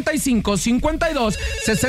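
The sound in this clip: A telephone ringing with an incoming call on a call-in contest line: loud, rapidly repeating warbling tones in short, evenly spaced bursts that run through the whole moment, with a voice-like layer mixed in.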